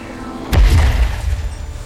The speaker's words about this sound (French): Ce que nous avons créé est une sorte d'explosion à onde de pression.